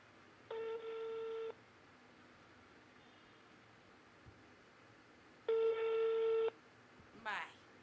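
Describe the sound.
A telephone ringback tone sounds twice as a call is placed. Each is a steady buzzy tone about a second long, separated by a long quiet gap, and a brief electronic chirp follows. The sound is faint overall.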